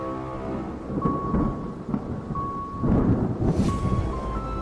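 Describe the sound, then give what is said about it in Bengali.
Rolling thunder with rain, used as a sound effect in a horror story drama set on a desolate open plain, forms a loud, continuous low rumble that swells a few times, with a faint steady tone in places. “এই ধুধু প্রান্তরে এই শব্দ বিদ্যুৎ চমকানোর শব্দের সাথে মিশে এক ভীষণ পরিবেশ তৈরি করল।”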